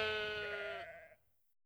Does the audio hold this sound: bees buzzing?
no